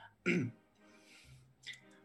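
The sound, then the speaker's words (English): A narrator's voice imitates a woman clearing her throat, giving a short, raspy burst followed a moment later by a softer second rasp, with a faint murmur between them. “She kind of clears her throat and like readjusts her little headdress”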